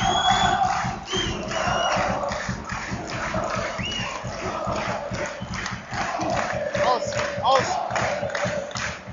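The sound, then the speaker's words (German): Football stadium crowd at an Offenbach (OFC) match against the league leaders, late in the game after a free kick: a loud, sustained roar of many voices with chanting, steady throughout. “Jetzt heißt es aufpassen und hört euch die Stimmung an.”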